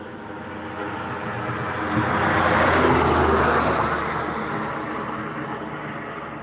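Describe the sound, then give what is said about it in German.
A car approaching from a distance at night, its engine and tyre noise swelling gradually to a peak around the middle and then fading away, fairly faint and steady with no voices. “das Zirpen der Grillen und jetzt von weitem auch ein Auto kommen.”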